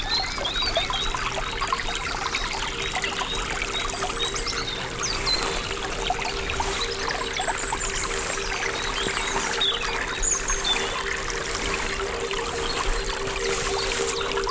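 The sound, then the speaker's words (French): A small stream of clear fresh water trickles in a continuous, gentle babbling flow, the light bubbling and splashing steady and moderately quiet throughout, with no voices. “Sur laquelle serpente ce petit ruisselet. Eau douce et cristalline.”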